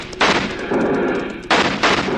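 Gunfire erupts in a western shootout among riders on horseback: a few loud, sharp blasts with a heavy, sustained roar of shots between them.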